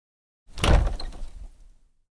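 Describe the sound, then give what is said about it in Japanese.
A door in ancient ruins is opened, one heavy, rumbling scrape that swells quickly and then fades out over about a second and a half, with no voices. “ありました。二つの扉です。これは、資料によれば、右はトラップです。左を開けてみましょう。”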